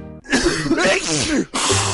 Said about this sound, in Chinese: 打喷嚏要用面纸或手帕遮住口鼻，或用衣袖代替。